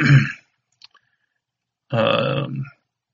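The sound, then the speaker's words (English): Someone clears their throat in two rough, low, guttural bursts, a short one at the start and a longer one after a pause, with a faint click between. “Excuse me. Hang on a minute. Let me get bug out of my throat here.”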